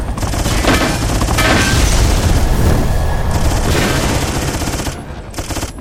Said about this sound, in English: Rockets. Nukes. Machine gun.